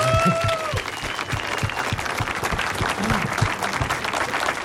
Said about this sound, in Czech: To chce potlesk.